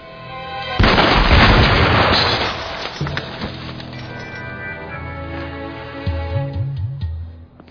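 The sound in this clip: A gunshot cracks out after a brief lead-in. It is followed by a long, heavy booming rumble that slowly fades over several seconds.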